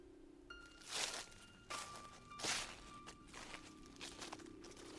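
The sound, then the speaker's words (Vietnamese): Human footsteps rustling near a house at night: several soft, irregular scuffing bursts spaced about a second apart, faint and without voices. “nghe có tiếng bước chân người sột soạt lại gần.”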